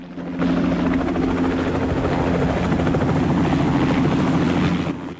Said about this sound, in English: A helicopter flies low over the ocean, heading towards an expansive glass-fronted house. A pool in front of the house ripples in the wake of the helicopter as it lands.